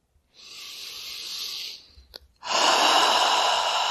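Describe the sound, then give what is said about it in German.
A deep breath drawn in during a relaxation exercise: a long airy inhalation, a brief pause with a faint click, then a louder, fuller rush of breath that continues to the end. “Und atme einmal ein.”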